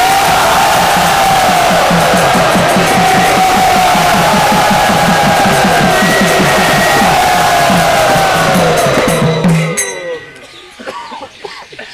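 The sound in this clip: An audience cheering loudly in welcome for an arriving guest, a sustained roar of voices and whoops that stays full for most of its length, then drops away abruptly near the end.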